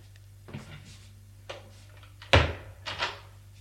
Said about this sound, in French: le prêtre ouvre une porte. Il fait entrer Gilles.